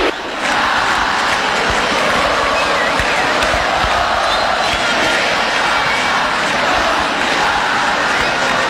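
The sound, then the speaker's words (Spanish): A football stadium crowd at Defensores del Chaco with fans standing and jumping on the concrete stands, making a dense, loud, steady roar that holds with little change throughout. “El que no salta no va al Mundial, vibra en la grada de cemento. El público está de pie, escuchen.”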